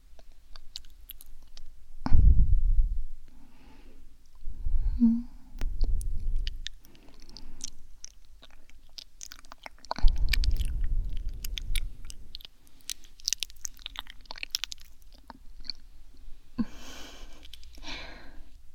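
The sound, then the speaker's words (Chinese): A child chewing pieces of Hami melon: soft, moist mouth sounds and muffled low thumps that come irregularly, with a few crisper clicks, faint throughout. “来，快点，哈密瓜还剩了几块，都得乖乖吃完哦。”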